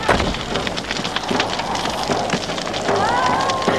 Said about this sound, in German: Das Haus brennt.